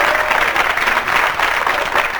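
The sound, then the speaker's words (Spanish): An audience applauds during a comedy routine, a dense, continuous patter of many clapping hands holding at even loudness throughout. “¡Aplauso para el representante argentino!”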